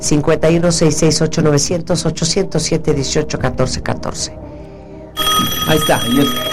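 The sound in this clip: Telephone ring for an incoming call, a bright steady tonal burst filling the final second and a half, after talking and a brief quiet pause.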